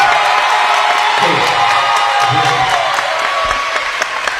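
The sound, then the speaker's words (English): Huntington fans at a basketball game applaud loudly, a roaring mix of clapping, cheers and whoops that stays at full volume throughout, with scattered shouts rising above the crowd. “Huntington fans uh, applauding loudly.”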